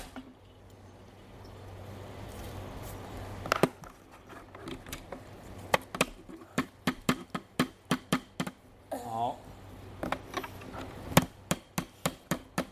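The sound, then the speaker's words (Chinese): Hammering nails while a father and child assemble a toy vehicle. After a quieter start, many sharp, fairly regular knocks ring out, with a steady tapping rhythm and some louder strikes toward the end. “爸爸还要锤钉子。 哦，我要锤钉子呀。”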